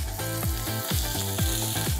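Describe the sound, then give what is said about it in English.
Food sizzles as it sears and cooks on a grill over low fire, a steady crackling hiss carried on a rhythmic, repeating pulse of low tones throughout. “So we have to give the crust and then let it cook nicely through for a little bit of time, low fire.”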